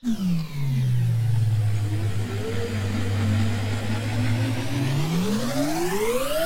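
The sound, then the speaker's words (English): Car engine sound effect of speeding along the Autobahn: a loud, continuous engine whir whose pitch drops early, holds steady through the middle, then climbs toward the end, with no voices. “All right, there we go, riding 500 kilometers per hour in the Autobahn.”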